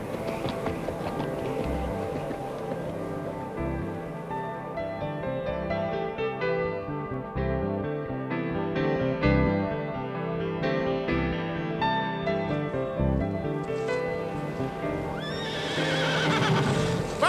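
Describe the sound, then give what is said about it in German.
Horse galloping and neighing as its rider sets off for a dike under threat: steady clip-clopping hoofbeats run for many seconds at a moderate level, with a whinny. “Ich reite!”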